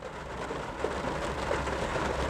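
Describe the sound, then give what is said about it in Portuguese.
Rain falling over a workplace parking lot, a steady, even hiss of drops with faint patter that carries on without a break. “tá chovendo. Eu tô no estacionamento do trampo esperando ver se a chuva passa.”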